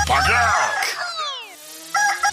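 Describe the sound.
A rooster crowing, a loud harmonic call made of a few arching sweeps that rise and fall in pitch, followed by a short quieter sound at the end.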